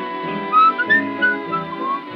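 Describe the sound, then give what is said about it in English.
Whistling of a melody: a run of short, bright notes that wander up and down over a steady sustained musical backing. “I was thinking, whistling, it's a very popular thing for Mickey to do.”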